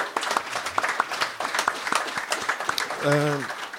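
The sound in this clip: Small audience applause, scattered individual claps from a handful of people, sparse and uneven, ending as a voice cuts in.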